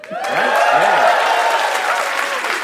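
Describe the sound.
An audience bursts into loud, sustained applause that holds steady throughout, with a few voices cheering near the start.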